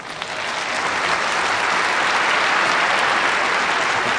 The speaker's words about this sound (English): you can tell you already have a lot of fans in our audience, interrupted with applause, and people are so excited to see you here.